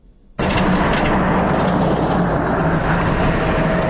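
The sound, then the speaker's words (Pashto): A motor vehicle labours along a rough, potholed mountain road toward Baghran district. A loud, steady rumble of engine and road noise kicks in abruptly after a brief quiet start and holds without letup. “دا د باغران ولسوالۍ ته پر غځېدلې کنډ او کفر سړک د روان هغه کومک لرونکو بایپور موټر ژغ دی”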